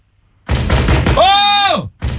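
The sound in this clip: Heavy banging on a door, a rapid run of loud thuds, then a long, loud shout.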